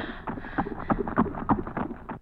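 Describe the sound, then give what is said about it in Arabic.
Horse hooves as a prince approaches on horseback. The clopping is steady and rhythmic, with many evenly spaced hoofbeats of moderate loudness. “يا إلهي يا إلهي، إنه الأمير حسان على صهوة حصان، ومن يكون؟”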